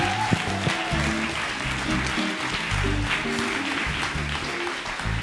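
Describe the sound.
A church audience gives steady applause on an afternoon to welcome an online community joining from around the world. The dense, even clapping runs throughout over low, sustained musical tones.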